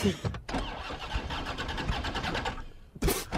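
A car engine starting: a rhythmic, throbbing churn runs steadily for about two seconds and then cuts off, followed by a short, loud burst of noise near the end.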